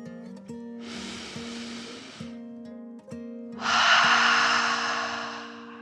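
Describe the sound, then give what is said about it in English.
A deep breath in and out comes as two long, airy breath sounds, the second louder and fuller, over a soft, steady tonal background. “took another dragon breath, calming her body in and out”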